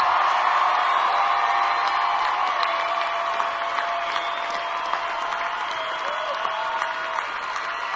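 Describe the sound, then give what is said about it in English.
An audience cheers and applauds a band on stage with steady, dense clapping and scattered whoops and shouts, all holding at an even level. “Give it up to this, make the most noise you can possibly make for this band up on stage.”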